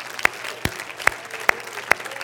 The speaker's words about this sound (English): Let's clap our hands unto God and bless his name.